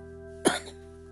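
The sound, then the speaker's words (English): A single short, throaty cough from someone coming down with the flu, one sharp burst rising out of a steady low hum and fading quickly, with no talk around it. “sorry about that, listeners, just a little cough there”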